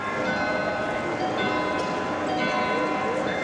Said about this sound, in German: Vor der neugotischen Zuckerbäckerfassade des Münchner Rathauses stehen Touristen aus aller Welt und bestaunen das berühmte Glockenspiel.